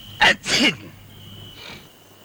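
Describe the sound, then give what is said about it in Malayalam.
A sneeze from someone with a stuffy nose, which flares up when it turns cold and misty outside. It comes as two loud bursts in quick succession, followed by a faint breathy sound. “പുറത്ത് മഞ്ഞ് വീണ അപ്പ തുടങ്ങും മൂക്കടപ്പും തുമ്മലും.”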